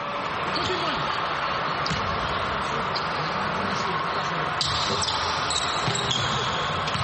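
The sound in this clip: A basketball bounces as Senegal's team lines up a free throw, a few faint dribbles nearly buried under steady commentary and dense background noise.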